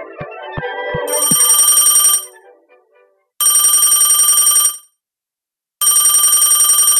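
A telephone rings in three buzzing, harmonic-rich bursts separated by short gaps, the last running to the end; a few short plinking tones come just before the first ring.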